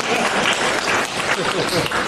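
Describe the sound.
Audience applause, dense and loud, with steady clapping that fills the whole short stretch without pause.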